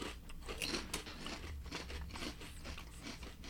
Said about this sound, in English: they get these chips from Maui, and then they ship them and then cover them in sweet onions. I'm sorry, what does it say on the bag? Maui sweet onion.